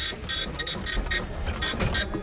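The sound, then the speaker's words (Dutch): A printer at a busy logistics company churns out waybills, with rapid, evenly repeating bursts of mechanical whirring and clattering that continue without pause. “Die printer die gaat maar door. Wat heeft hij nou allemaal uitgespuugd, mevrouw Wolfes? Nou, die heeft allemaal vrachtbrieven uitgespuugd.”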